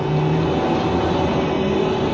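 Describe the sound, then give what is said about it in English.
An urban link train leaving a tube station gives off a continuous, loud rumble with a faint steady whine, even and unbroken throughout, with no voices. “At the Pennybaker Street tube station, Foom and Drone board an urban link train that carries them to a small spaceport near Croydon.”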